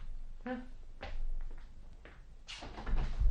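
Faint clunks and rattles as a door is opened for arriving guests: a few soft, scattered knocks and scrapes, quiet throughout, with a slightly fuller thud near the end.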